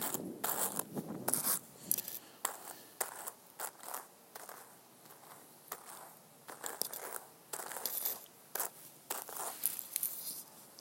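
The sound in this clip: Hand cards brush and scrape through fibre in many soft, rhythmic strokes, a quiet dry rasping repeated throughout.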